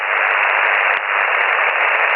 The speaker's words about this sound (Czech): Takže krásný čistý šum.